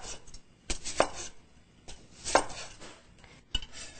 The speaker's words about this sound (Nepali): मैले प्याज काट्छु।